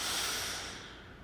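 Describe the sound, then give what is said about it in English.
A deep inhale through the nose during a guided breathing exercise: one steady, breathy hiss that starts loud and gradually tapers off, heard alone without talk. “Deeply inhale your power one more time through your nose.”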